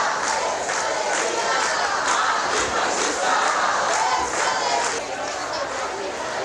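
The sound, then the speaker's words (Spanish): A crowd of mostly young people chants slogans at a street demonstration. Many voices shout in a loud, continuous, rhythmic roar with regular pulses of emphasis. “Este era sonido ambiente de esa manifestación”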